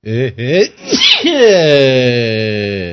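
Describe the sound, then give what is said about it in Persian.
A loud, voiced human sneeze: short vocal build-up sounds, a sharp noisy burst, then a long drawn-out vocal tail that slowly fades. “وقتی که اول برنامه آدم یه عطسه میزنه، اصلا زندگیش از این رو به اون رو میشه.”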